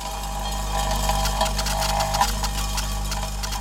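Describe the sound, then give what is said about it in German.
A Fraunhofer prototype machine that sorts building materials from demolition gives a steady low mechanical hum with a constant drone and faint rattling clicks layered on top. “Diese Maschine der Fraunhofer Gesellschaft könnte dafür die wichtigste Voraussetzung liefern, nämlich die zahlreichen Baumaterialien zu sortieren, die bei einem Abbruch anfallen.”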